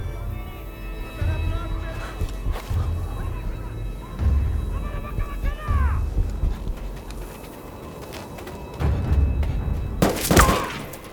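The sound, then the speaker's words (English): Scattered gunfire laid down as covering fire in a firefight, with a few sharp cracks and bursts at irregular intervals over a low, rumbling background. “It's just covering fire! Save your ammo!”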